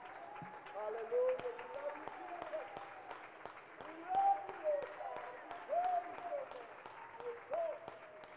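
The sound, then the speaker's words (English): Church audience clapping a hand clap of praise at a service, a fairly quiet, sparse stream of claps running throughout, with vocal tones rising over it in several swells. “If you think Jesus is great, why don't we join together one more time before we're seated and give him a great hand clap of praise, everybody.”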